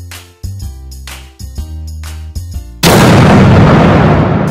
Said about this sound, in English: Why does it have that gun thing at the end? I don't know, I like ending... I don't know how to end things normally.